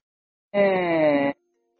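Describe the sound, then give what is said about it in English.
A single sustained buzzy vowel is produced by a 3D-printed vocal tract and electronic larynx modeled on the mummy Nesyamun, an ancient Egyptian scribe and priest at the Temple of Karnak. It is a steady, droning tone lasting under a second that sinks slightly in pitch. “The sound you just heard was produced from a 3D-printed vocal tract and electronic larynx.”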